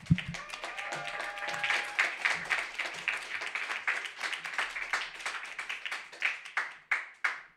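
Audience applause for the first reader at an open mic, a dense burst of many hands clapping that thins into separate, slower claps toward the end.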